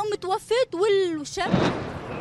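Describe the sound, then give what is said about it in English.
A nearby explosion in a Syrian border town during a military offensive: a single sudden heavy blast cuts off a voice speaking, then trails into a rumbling, noisy decay. “A nearby explosion interrupted this reporter's interview with a local resident.”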